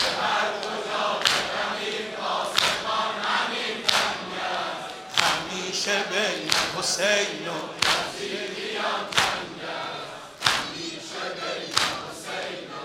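Mourners beat their chests in unison during a Muharram ritual: many heavy, hollow slaps in a steady rhythm, a little over a second apart, under loud crowd chanting.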